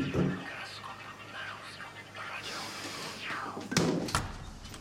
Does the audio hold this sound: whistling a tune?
no

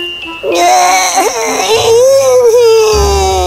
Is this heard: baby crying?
yes

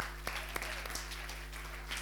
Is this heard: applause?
yes

